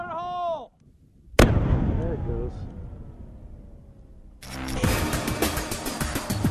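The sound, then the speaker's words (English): An explosion blows up a drug lab and its processing equipment. One sudden, very loud blast decays into a long rumble, and a dense, sustained roar follows a few seconds later. A brief voice is heard before the blast. “The special operators set fire to the lab and blow up the drugs and processing equipment.”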